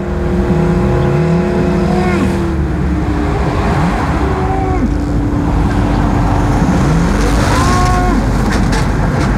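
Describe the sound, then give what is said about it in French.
A constant loud roar of motorway traffic across flat, open land with no hills, with vehicles rushing past one after another, their engine tones sweeping and falling over a heavy, unbroken rumble. “Ici, pas de plis, pas de collines, pas de montagnes pour dissimuler le son de l'autoroute.”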